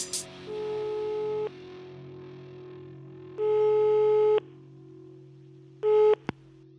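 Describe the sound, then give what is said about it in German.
Telephone call tones from a ringing-out call with a busy signal: three steady electronic beeps of about a second each, separated by silent gaps, the last one cut short, over a low constant hum. “Ich rufe den mal an.”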